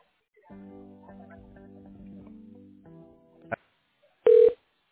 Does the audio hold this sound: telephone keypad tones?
yes